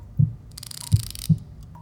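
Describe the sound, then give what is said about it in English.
A heartbeat sounds as three low, dull thumps spread unevenly across the moment. They are fairly faint, with a quiet hiss between the beats and no voices. “Your heartbeat's starting to slow.”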